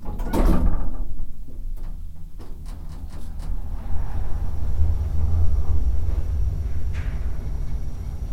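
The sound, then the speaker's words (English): Elevator doors slide closed with a low mechanical rumble and a few soft clicks, over a steady hum. “Please select your floor. Doors closing.”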